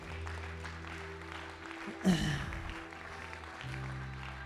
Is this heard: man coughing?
no

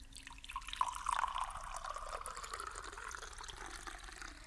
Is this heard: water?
yes

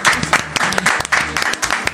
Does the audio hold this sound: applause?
yes

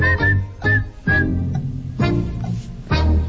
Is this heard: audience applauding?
no

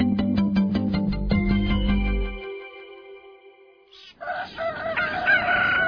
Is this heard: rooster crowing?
yes

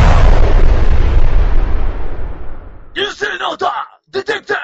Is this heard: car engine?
no

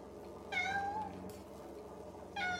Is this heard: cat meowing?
yes

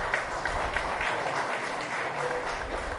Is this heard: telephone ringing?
no

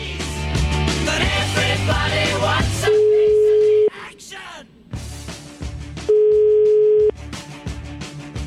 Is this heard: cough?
no

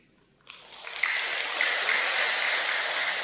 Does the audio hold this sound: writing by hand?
no

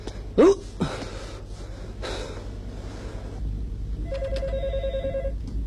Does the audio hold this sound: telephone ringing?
yes

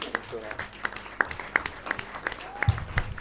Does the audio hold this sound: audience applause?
yes

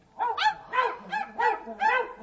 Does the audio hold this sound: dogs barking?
yes

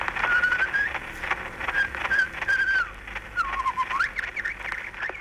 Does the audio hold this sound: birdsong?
yes

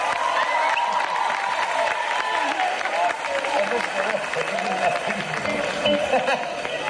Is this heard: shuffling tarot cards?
no

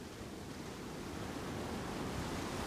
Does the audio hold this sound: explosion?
no

